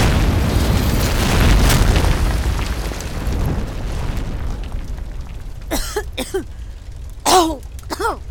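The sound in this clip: A gas explosion from Bunsen burner gas jets: a long, loud rumbling boom that slowly fades over about four seconds, followed by a few brief voices.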